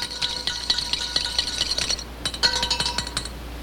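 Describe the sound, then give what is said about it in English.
Eggs are stirred rapidly in a bowl, giving fast, bright clinks of a utensil against the bowl in two quick runs split by a brief pause. “that's the time to add the eggs. Stir them rapidly.”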